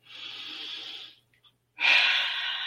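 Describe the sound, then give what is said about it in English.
A deep breath taken during a relaxation exercise: a long, soft inhale, a brief pause, then a louder, fuller exhale. “Take a deep breath.”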